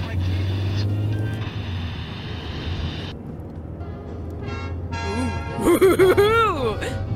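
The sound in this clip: Steady low hum inside a car driving on a cool, clear night, then crackling static and warbling, sweeping tones as the radio is tuned in search of a music station.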